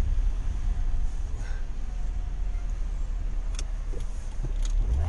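A car driving fast on a road, with tires losing grip and spinning out while changing lanes. A loud, steady roar of engine and road noise continues without a break through the whole stretch.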